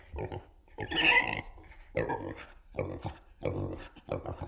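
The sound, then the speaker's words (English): Pig oinking, a played sound sample: a string of several short, grunting oinks in an uneven rhythm, each burst loud and nasal, separated by brief pauses. “Pig number two. Another pig. Selected.”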